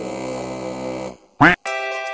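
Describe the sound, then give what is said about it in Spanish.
Duck quacks from a pond: a long, drawn-out nasal call, then a short, sharp, loud quack, then another sustained call, with no talk. “Todos los patos de la laguneta cantan siempre a coro, cuac, cuac, cuac, cuac.”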